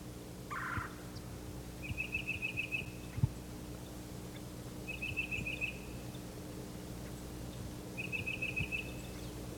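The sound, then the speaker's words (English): Faint bird calls come from a mixed flock of cardinals, titmice and myrtle warblers gathered in a bare turkey oak: one short call, then three brief high trills spaced a few seconds apart over low steady background noise. “The flock is gathered here in a bare turkey oak. There are many birds, cardinals, titmice, myrtle warblers,”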